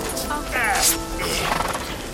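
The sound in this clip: A pony neighs after being tangled in its reins: a short, bright, quavering whinny that slides downward in pitch. Hoof clops and people talking can be heard around it.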